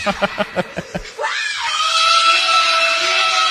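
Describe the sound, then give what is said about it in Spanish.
A woman over sixty screams at people approaching her at a motor vehicle registry in Quilmes: a few short choppy vocal bursts lead into a loud, high, sustained shriek that climbs and then holds. “Y ese grito es de una persona de más de 60 y pico años.”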